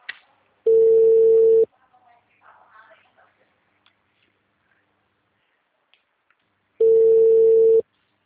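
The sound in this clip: An unanswered telephone call's ringback tone: two steady one-second beeps at one mid pitch, separated by a long quiet gap with only faint clicks and rustles.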